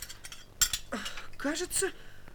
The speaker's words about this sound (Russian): Ну, конечно же, вот она, самая короткая ложка.